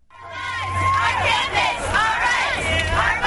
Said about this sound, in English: Here's the sound of a protest just last month at Dickinson College in Pennsylvania. Students marching to protest how that school manages cases of sexual assault.